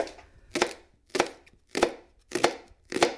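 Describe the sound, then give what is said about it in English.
A knife chopping a leek: five crisp, evenly spaced chops strike a board, each a short crunchy burst with a quick fade, and nothing but faint background between them. “Just chopping up a leek”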